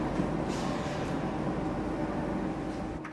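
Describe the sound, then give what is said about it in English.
Trains speeding past each other make a steady, loud rumbling roar with a broad rushing hiss, holding an even level throughout without distinct separate events. “Under an overcast sky, trains speed past each other.”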